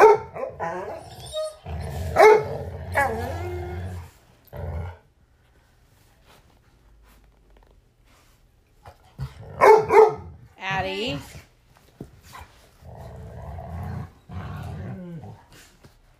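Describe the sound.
Dogs bark and growl at each other in two clusters of gruff, loud outbursts separated by a quiet stretch, with a person's voice briefly speaking.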